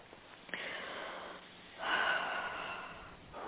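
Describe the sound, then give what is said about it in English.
A deep breath taken during a guided healing meditation, heard as a faint, soft breathy rush of air that swells briefly and then fades. “And take a deep breath.”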